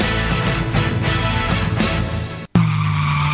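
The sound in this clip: Car tires skid and screech under hard braking. The loud, harsh sound holds steady, cuts out for a moment near the end, then resumes as strongly.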